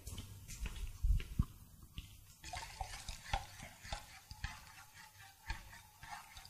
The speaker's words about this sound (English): I'm going to come back and stir again.